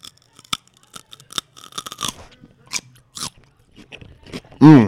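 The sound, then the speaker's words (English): Crisp celery is bitten and chewed right into the microphone, giving a series of sharp, crunchy snaps at irregular intervals, followed by a brief louder voiced sound at the end. “Bite into that celery right into the mic right now.”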